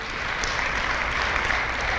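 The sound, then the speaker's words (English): Audience applause for a missionary, brisk continuous clapping from a crowd at an even, moderate level throughout. “We got a brother here that's been a missionary for longer than I have, before I was even born, David Stewart Sr. Give a hand clap to him.”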